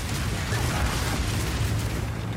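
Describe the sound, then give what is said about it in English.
Fiery bursting of an incendiary bolts spell in a video game, a dense, continuous crackling roar layered over low booms, loud and steady throughout with no talk. “Incendiary bolts.”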